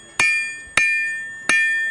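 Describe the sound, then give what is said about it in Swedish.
A blacksmith hammers metal at a medieval market in Visby on Gotland: three sharp strikes, evenly spaced, each leaving a bright, high metallic ring that slowly fades before the next blow. “Ja, och det som ni hör nu, det är en medeltida smed, en sån som faktiskt fanns på skeppen.”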